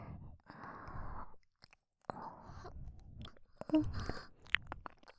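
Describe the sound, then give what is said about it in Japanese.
Ear-licking ASMR mouth sounds: soft, wet smacking and slurping in a few long stretches separated by brief pauses, with breathy sighs in between. “私は旦那様のお耳舐めさせていただきます。”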